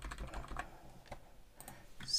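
Soft, quiet keyboard typing as a phone number is entered into a medical prescription app, a few light key taps in an irregular rhythm with no talk over them.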